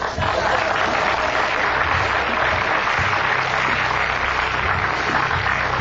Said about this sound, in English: I would hope you're applauding the justice on my brother's end and not the arrow in my head.